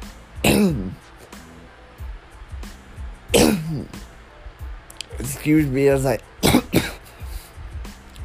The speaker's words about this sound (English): excuse me as I die on my podcast. I apologize. As I said, I still have a little remnants of the cough from my pneumonia.